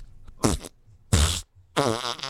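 Three loud, buzzy fart sounds played as a gag in a studio. Each is a rasping burst with a wobbling pitch, and short pauses separate them.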